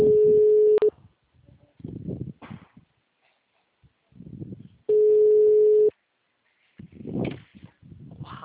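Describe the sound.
An unanswered phone call rings out as two long, steady, low ringback tones, each about a second long and roughly four seconds apart. Quiet voices murmur between the tones.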